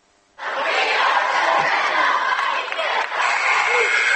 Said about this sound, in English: Well, welcome back to a noisy Fairlawn gym.